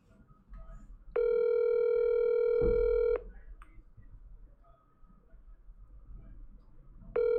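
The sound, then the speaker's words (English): Telephone tones as a call is placed to a guest on a sports talk show. A steady, buzzy tone lasts about two seconds, then a quiet gap follows before the same tone starts again. “Cedric Cornbread Maxwell, who we talk to now as we dial him up, punch him in, and talk to my man Max”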